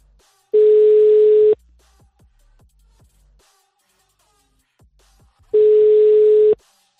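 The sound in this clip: Telephone ringback tone while a call is being dialed: two loud, steady one-second tones about five seconds apart, with near silence and a few faint clicks in the gap.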